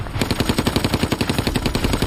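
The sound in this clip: A German machine gun fires from a tower across the Rhine in one rapid, sustained burst. The loud shots come in a steady stuttering rhythm that runs through the whole clip.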